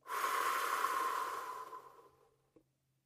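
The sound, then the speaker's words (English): One long, deep breath makes a soft, airy rush that starts strong and slowly fades over about two seconds. A faint click follows, and no one speaks. “First, let's take a deep breath. Let it out.”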